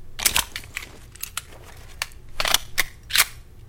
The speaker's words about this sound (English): Reloaded my pistol there.